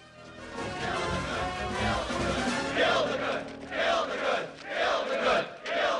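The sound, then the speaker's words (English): A crowd of pagans chants. A low, rumbling murmur gives way to loud, rhythmic vocal bursts that repeat about once a second through the second half. “They arrive outside to face a chanting crowd of pagans.”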